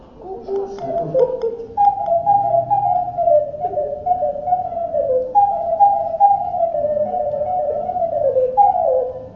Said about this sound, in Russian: Вот такая кукушечка.